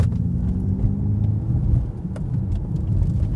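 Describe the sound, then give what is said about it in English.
Synthesized engine sound from a Ford Mustang Mach-E electric car: a steady, low, rumbling drone likened to a flat V6, holding level throughout with slight fluctuations and no voices. “It just sounds a little bit like, I don't know, a flat V6, to be completely honest. It would have been nicer to maybe have an actual Mustang sound sampled, but there you go, let's give it another go.”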